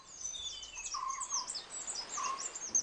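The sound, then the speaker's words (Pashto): Common kingfishers, two territorial males, call in thin, shrill, high-pitched piping whistles, a quick run of repeated short notes, faint and without talk. “خو دلته زه د عادي کب خوړونکي مرغه غږ اورم، او دوی دلته دي.”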